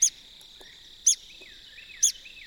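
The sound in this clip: Woodpecker fussing at its nest hole in a mature longleaf pine stand: four sharp, high chirping calls about a second apart, softer squeaky notes between them, over a steady thin insect drone.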